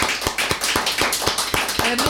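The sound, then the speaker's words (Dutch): Steady rhythmic clapping from a live-show audience asked to applaud a performer, about nine evenly spaced sharp claps over a constant noisy crowd background. “ik wil jullie vragen om één keer voor Anke te klappen”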